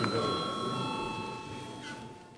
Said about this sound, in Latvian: Lūdzu zvanu.